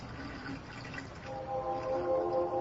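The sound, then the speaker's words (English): Water rushing into a bathtub as a steady, loud watery hiss, later joined by a sustained ringing, gurgle-like tone as the flow changes. “and I stop the water, and I, I open the drain.”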